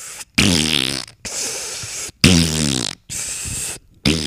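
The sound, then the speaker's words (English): Repeated farts come in a quick series of long, buzzy, sputtering bursts, each lasting under a second and separated by short silences. They are fairly loud and alone, with no talk. “So whenever you shoot that fart out, it does this weird thing where it like sucks in more air as the intestines fall, and then you fart it back out again, and then you keep doing the same thing.”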